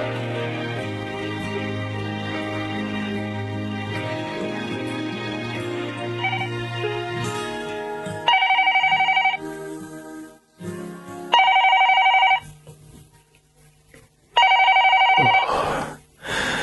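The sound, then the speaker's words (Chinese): A telephone keeps ringing, three loud, bright electronic rings, each about a second long and separated by short pauses. They follow a stretch of soft music that fades out before the first ring. “个电话仲不停咁响添”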